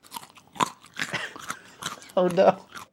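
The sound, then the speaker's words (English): Crunching eating sounds played as a giraffe's sound on an animal click-to-hear page: several crisp, dry bites and chews in an uneven rhythm, with a short tonal burst near the end. “That's its sound. That's not its sound. That's the sound I make when eating. I'm eating. That's the sound of it eating something.”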